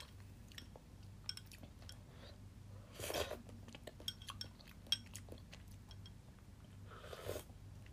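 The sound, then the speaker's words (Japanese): Someone eating soup: faint, scattered clinks of cutlery against dishes and a couple of short, breathy noise bursts over a low, quiet background hum. “スープも飲んでみましょう。”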